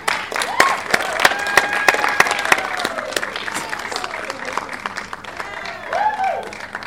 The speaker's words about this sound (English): So big round of applause for all of them.